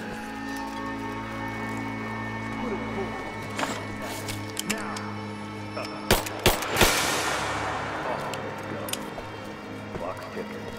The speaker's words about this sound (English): We're out of time. Shoot him!